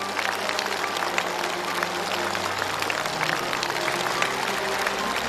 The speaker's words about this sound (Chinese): 我们为他热烈的鼓一次掌